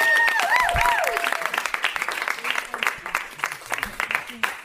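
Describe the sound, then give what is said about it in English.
An audience applauds a storyteller at a live show at the Magnet theater: dense, steady clapping that fades a little toward the end, with a voice speaking briefly at the start. “Please, everyone, give a big hand for Adam Wade, everybody.”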